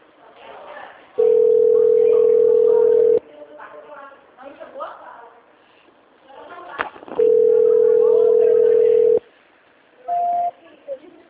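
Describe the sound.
Telephone line tones sound during a call transfer: two long, loud, flat beeps of about two seconds each, and a shorter, higher beep near the end, with quiet talking in between.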